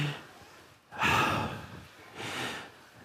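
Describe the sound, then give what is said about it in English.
A group breathing in and out together during a guided exercise: two soft, airy swells of breath, the first louder and brighter, with quiet between them. “Just everybody just kind of close your eyes and just breathe in and then breathe out. Let's do it together. Just go.”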